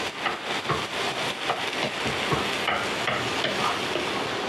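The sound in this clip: Egg stirred in a frying pan over low heat, a continuous sizzle broken by repeated scraping strokes of the utensil against the pan, with no voices.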